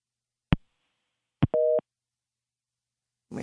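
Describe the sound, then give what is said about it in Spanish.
Busy tone after a dropped phone call: two sharp clicks, then a single short, steady two-pitched beep, with a brief burst of noise at the very end. “Me parece que se cayó la llamada.”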